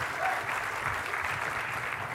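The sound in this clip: Audience applause after a speaker introduces a demo at a tech talk: dense, even clapping that holds at a steady level throughout.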